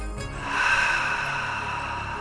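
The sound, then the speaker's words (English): Deep breathing during a guided breathing exercise: a long, airy breath that swells and then holds steady, after a short sniff-like sound at the start, with no talk over it. “we're going to breathe together. So go ahead and inhale. And again.”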